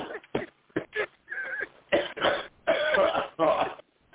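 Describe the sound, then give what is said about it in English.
A coughing fit: a series of harsh coughs and throat-clearing bursts in an irregular rhythm, some short and sharp, others drawn out, loud and with no talk over them. “Oh, no wonder it's an empty coughing fit.”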